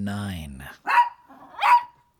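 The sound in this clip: A dog gives two loud, sharp barks in close succession, each a short bright burst with a brief pause between them.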